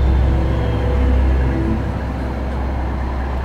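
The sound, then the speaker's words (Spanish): Deep, steady engine rumble of a garbage truck, a heavy droning roar that holds fairly level throughout with no voices. “Progresivamente, el desagradable bramido del camión de la basura fue creciendo en intensidad y volumen como prueba de su inminente proximidad.”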